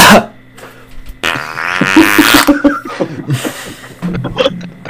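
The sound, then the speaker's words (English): A voice imitates a clumsy, badly timed cough: one long, rasping vocal burst followed by several shorter, choppy throaty noises, loud and alone without other talk. “you try and cough to cover it, but like your timing is completely off, so it just goes”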